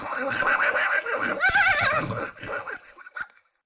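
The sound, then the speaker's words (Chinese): A large troop of horses approaching: a loud whinny with wavering pitch rises over a dense, continuous scuffling din of the herd, which thins out and fades toward the end. “突然间听到远方一大片马蹄之声”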